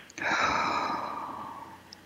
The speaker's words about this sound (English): And take a deep breath and relax.